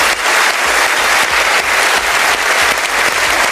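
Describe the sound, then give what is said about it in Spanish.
Sustained, dense applause from an audience ovation honoring Barbra Streisand's honorary Palme d'Or, loud and steady with no break throughout. “la palma de oro de honor fue para Barbara Streisand, que no pudo estar presente, pero quien envió un agradecimiento y fue ampliamente ovacionada por el público.”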